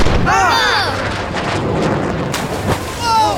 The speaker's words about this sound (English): That was a warning shot. Lower your sails and prepare for boarding.